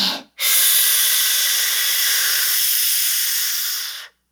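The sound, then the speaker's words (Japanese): A slow breath drawn in during a breathing exercise, a steady, airy hiss that holds evenly for about four seconds before stopping, heard alone. “5秒吸って”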